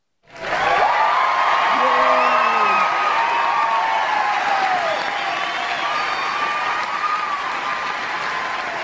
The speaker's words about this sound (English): We actually do have a studio audience here. Marvin, welcome back to Radio Connection Live. I can tell that's canned applause because I've never had applause like that in my life